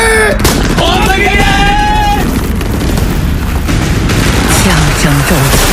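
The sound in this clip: Heavy gunfire as Japanese troops open fire in a surprise wartime attack: dense, continuous loud bursts and booms throughout, with shouting voices over the barrage.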